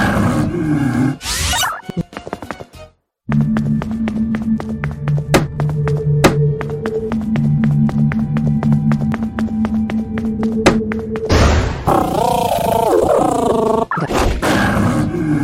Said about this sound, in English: A feral level 40 ghost Leonatar attacked you.